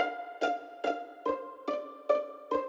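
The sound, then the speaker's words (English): Violin strings plucked with the fingers, pizzicato style. Six short, evenly spaced plucks each ring briefly and decay quickly, with the pitch shifting slightly from note to note. “It can be performed pizzicato, which means you pluck with the fingers, and it sounds like this.”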